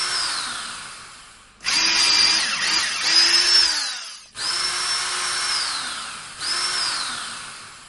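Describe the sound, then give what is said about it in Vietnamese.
An electric drill bores into ice in a quiet snowy valley with a loud, shrill whine. It runs in a few long bursts, and each one winds down with a falling pitch before the motor starts again. “Tiếng máy khoan điện chói tai đột ngột vang lên. Trong thung lũng tuyết yên tĩnh nghe rõ mồn một.”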